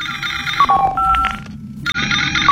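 A telephone ringtone signals an incoming call: a melodic electronic tune of bright repeating tones that plays steadily through the whole stretch with no voices.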